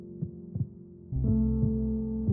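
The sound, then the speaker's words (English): Heartbeats thump softly. Two low beats come first, then a steady low hum sets in with a second rhythmic heartbeat, and several more muffled thumps follow at an even pace. “Here is the sound of your heartbeat, and here is the sound of theirs.”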